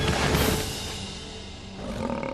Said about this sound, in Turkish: Diğer kaplanlar Manfred'e saldırdı. Manfred dişleriyle kendini savunmaya çalışıyor. Kaplan Diego'yu yere sardı.